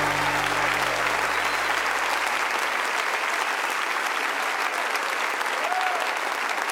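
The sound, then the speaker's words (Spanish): Audience applause, dense and steady clapping from a large crowd that holds an even, fairly loud level without pause from start to end. “fuerte ese aplauso a él.”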